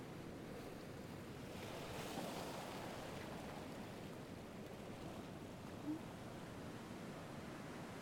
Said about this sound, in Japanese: ただぼんやり海を眺めながら波の音と海猫の鳴き声を